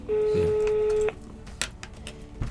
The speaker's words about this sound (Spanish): Ahí está, ya lo estamos llamando de vuelta.